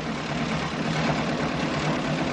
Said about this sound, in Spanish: En otro momento, Alfredo avanza en un coche por la ciudad.